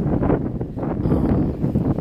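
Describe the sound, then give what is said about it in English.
Wind buffets outdoors as a steady, loud low rumble and muffled roar that rises and falls in gusts, with no clear talk over it. “sorry if it's loud. I'm sorry. The wind is, it's picking up. I can feel it.”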